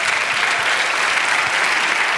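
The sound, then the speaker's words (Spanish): Applause from a church audience during a worship service: steady, dense clapping that stays at an even level for about two seconds, with no pauses. “Dale un aplauso al Señor.”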